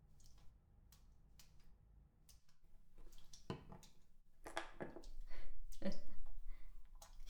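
Someone washing something with water, faint wet squishing and dripping in irregular bursts that grow somewhat louder toward the end.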